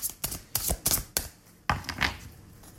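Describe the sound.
Playing cards being drawn from a deck make a quiet series of crisp, papery snaps and flicks in an uneven rhythm, about eight sharp clicks, with no talking.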